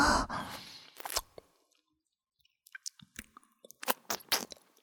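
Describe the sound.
Quiet chewing of tasty food: soft wet mouth clicks and squishes in irregular bursts, with a silent pause in the middle.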